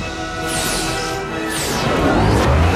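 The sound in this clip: Spaceship fighters explode as a missile's plasma wave hits them. Loud, continuous crashing roar with sweeping whooshes near the start and middle, swelling into a heavier, deeper rumble toward the end.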